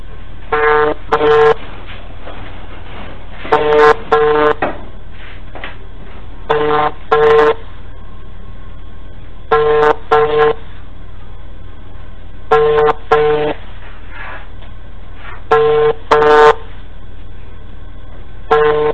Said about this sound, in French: C'est ce qu'on va attendre maintenant. Son téléphone va sonner.